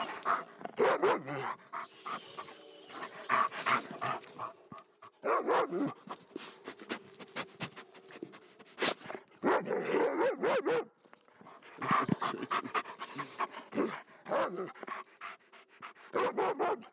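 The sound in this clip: Heavy, rapid panting from a high-content wolfdog comes in repeated bursts of breathy noise, separated by brief pauses, and runs through the whole stretch with no talk over it.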